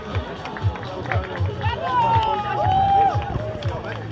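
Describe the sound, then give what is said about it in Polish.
Spectators loudly cheer and shout for female runners during a race, their voices forming a continuous, excited babble over a steady rhythm of thudding footsteps. “Głośno dopingujemy kolejne zawodniczki.”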